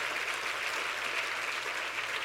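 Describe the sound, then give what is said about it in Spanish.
Applause from a church audience during a sermon: a dense, steady wash of many hands clapping, sustained at an even, fairly loud level throughout without any voices. “Y si usted puede aplaudir a Dios, hágalo mejor.”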